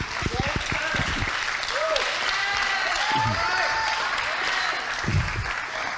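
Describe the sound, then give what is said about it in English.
An audience clapping during a church service, with steady applause throughout and voices calling out over the clapping. “I'm going to remember all of you that just clapped and said yes when it gets weird.”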